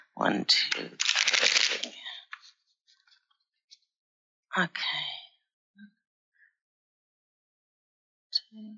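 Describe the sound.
Tarot cards being shuffled make a long, dense riffling rush at the start, followed by a few separate soft slaps and snaps as cards are drawn and laid down.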